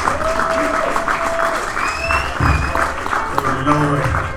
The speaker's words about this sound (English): So ladies and gentlemen, put your hands together, pull them apart, do that about 500 times. That's what I call applauding, and give it up for Mr. Keith Ellis.